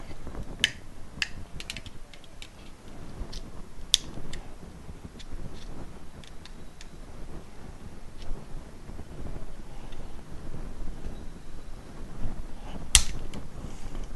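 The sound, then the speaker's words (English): A Decora four-way light switch being pried apart: faint plastic creaks, clicks and many small ticking snaps over a soft background hiss, with one sharper crack near the end. “So just curious to see what's inside these guys, so I'm going to rip them apart and talk about them. So we got it cracked open.”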